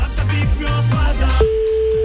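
A telephone line ringing out after a call is placed from radio software: a steady single tone begins partway through and holds to the end, over a repeating musical backing.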